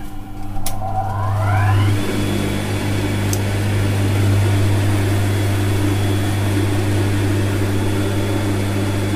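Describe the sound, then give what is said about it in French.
A powerful sewing machine runs while stitching, with the threads held back by hand. A continuous motor hum with a high whine that climbs at the start, then holds steady and loud throughout. “la machine, elle est assez puissante, donc du coup, il faut là retenir le point”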